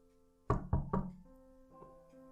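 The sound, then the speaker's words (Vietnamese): Three timid knocks on a bedroom door in quick succession, each short and fairly sharp, followed by a soft sustained musical tone that carries on after the knocking stops. “Con sóng rụt rè gõ cửa phòng Khánh Bình.”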